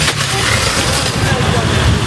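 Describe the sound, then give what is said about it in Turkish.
A motorcycle engine roars in a wedding convoy in Istanbul, a loud, dense and steady rumble that holds at an even level throughout. “Düğün konvoyunda bir de motosiklet vardı. Sürücüsü gaza geldi, motosikletin önünü kaldırmaya çalıştı.”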